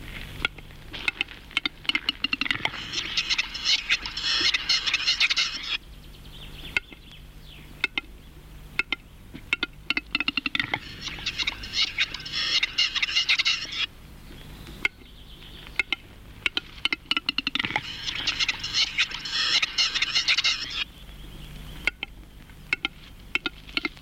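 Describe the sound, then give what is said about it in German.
A male capercaillie's courtship display song. Three repeated phrases each start as a run of dry, quickening clicks and end in a hissing, scraping sequence, with short pauses between the phrases. “Der folgende Hauptschlag hört sich an, als ziehe man einen Korken aus der Flasche. Und das Schleifen erinnert etwas an das Wetzen einer Sense. Der Balzgesang des Auerhahns ist nicht sehr laut.”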